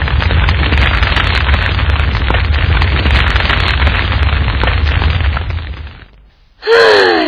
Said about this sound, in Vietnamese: Chỉ còn lại hai cái bánh bột gạo bao ngoài bột đậu trộn đường này thôi. Đành phải nướng lên ăn tạm vậy.